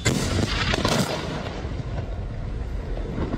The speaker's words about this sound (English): And that was the sound of an Israeli strike on a building in one of the largest cities in the country, Tyre in the south.